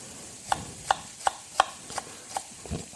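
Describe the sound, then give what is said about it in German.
A knife slices small shallots into thin strips, giving a steady, evenly spaced series of crisp taps, about six of them, with no talking. “Ich habe jetzt hier kleine Schalotten genommen. Einfach in dünne Streifen schneiden.”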